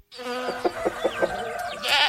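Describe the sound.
A goat bleats in a long, nasal, quavering cry with a quick tremolo pulsing through it, ending in a brighter, harsher burst.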